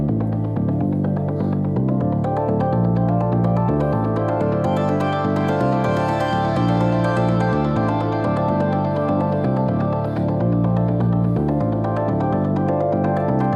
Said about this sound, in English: I added in the Moog bass line, again, always with the Moog, which sounds like this.